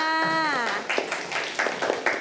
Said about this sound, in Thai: เก่งมากค่ะปรบมือให้เพื่อนค